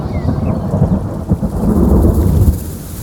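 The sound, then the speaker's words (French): A summer rain shower: loud, dense, steady rain noise with a deep, low rumble of thunder underneath throughout. “averse d'été. La pluie bat sur la tête des carpes.”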